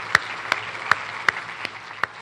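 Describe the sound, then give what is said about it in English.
Six loud, evenly spaced hand claps from an audience gathered in Texas to support military and Gold Star families. They come at a slow, steady rhythm rather than as a dense round of applause. “So if you can just give yourselves a round of applause, I really appreciate y'all being here.”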